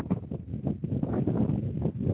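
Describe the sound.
Wind gusts outdoors on a windy May day at a university, heard as a low, rumbling buffet that rises and falls steadily throughout.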